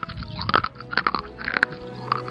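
Someone chews a crumbly, rough-textured Suica watermelon candy, giving many crisp little crunches and moist mouth clicks in an uneven rhythm.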